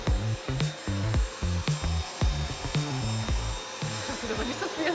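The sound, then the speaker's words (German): A König vacuum cleaner priced at 111 euros is pushed back and forth three times over filled tile grout in a test apparatus. It makes a loud, rhythmic, pulsing motor hum with repeated low tonal bursts. “Da passiert es im Mittelfiel. Dreimal wird der Sauger hin und her bewegt.”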